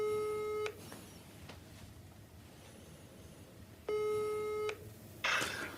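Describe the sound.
Ringback tones from a telephone while calling someone on loudspeaker: two steady electronic tone bursts a few seconds apart over a faint background hiss.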